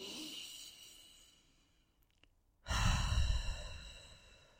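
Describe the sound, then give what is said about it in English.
A deep breath: a faint, slow airy intake followed by a loud, full, breathy exhale that swells and then gradually fades, heard alone. “Let's take a breath.”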